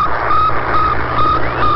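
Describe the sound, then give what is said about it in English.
Regular radio beeps from the Sputnik satellite's small onboard transmitter, recorded in 1957 two days after launch: four evenly spaced, high, steady tones pulsing over a constant bed of static hiss. “So that's the sound of Sputnik. That was recorded just 2 days after Sputnik launched.”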